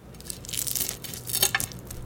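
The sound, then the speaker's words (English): Crisp crackling and crunching as a knife cuts through crispy-edged fried eggs just taken off the heat, in short, uneven bursts of brittle snapping that are loudest near the end. “And listen to this crisp as I cut through.”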